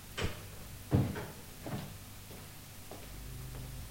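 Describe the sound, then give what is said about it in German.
A bedroom door opens with a few soft wooden knocks and clunks, spaced unevenly and fading in strength, over a faint steady background hiss. “Oben öffnete er die Tür zu Mr. Jenkins Schlafzimmer und trat ein.”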